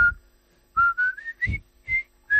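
Someone whistles a short, bright tune of several clipped notes, with the pitch stepping gradually upward. The whistling is clear and heard alone.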